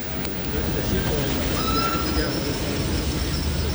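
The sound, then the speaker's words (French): A train at a railway station platform gives a steady, broad rumbling wash, with faint high metallic squeals drifting through the middle. “Sur le quai de la gare, Phileas Fogg aperçoit ses 5 partenaires du Reform Club.”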